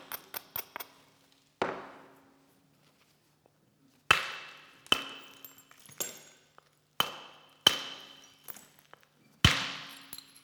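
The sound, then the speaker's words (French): Flint knapping with a soft hammer, striking thin, covering flakes during bifacial shaping: a few light taps open, then a series of sharp, clicking strikes that ring briefly, separated by quiet pauses. “Vous voyez qu'avec le percuteur tendre, on obtient des éclats qui sont extrêmement minces, très couvrants”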